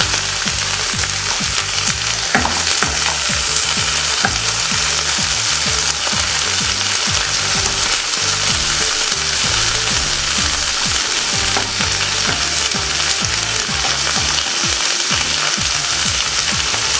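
Homemade chips sizzle loudly as they fry in oil in a pan and are stirred. The crackle is steady and dense throughout, with intermittent scraping and clatter from the stirring.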